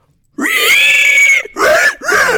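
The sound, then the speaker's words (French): A voice imitates a pig squealing as it is slaughtered: loud, high, strained cries, one long wail followed by two shorter bursts. “Avec l'imitation du cochon qu'on égorge.”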